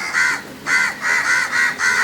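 Harsh, raspy cawing of a crow, repeated in a steady run of about five or six loud calls with short gaps between them. No voices.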